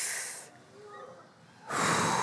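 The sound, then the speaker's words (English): A deep breath in and out: a breathy rush of air, a short quiet pause, then a louder, fuller rush of air. “normally when we like take a deep breath right now, ready?”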